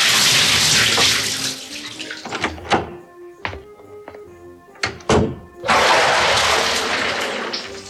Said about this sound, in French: je vais me reposer dans mon bain, ça va me permettre de me relaxer. Bon, bah, le temps qu'elle me rejoigne, je vais me foutre dans l'eau.